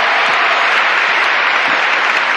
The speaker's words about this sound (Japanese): もっと拍手が足りない、拍手が足りない。